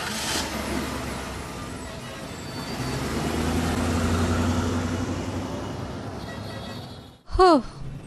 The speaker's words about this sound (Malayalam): Police jeep പോയി.